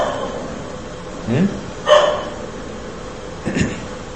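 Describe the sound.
Dog barking: three short barks at uneven intervals, rising briefly above a low, steady background.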